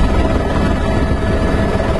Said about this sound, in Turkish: Görüntülerde ekiplerin derin karda arama yaptığı, helikopterlerin ise karla kaplı kampın üzerinde uçtuğu görüldü.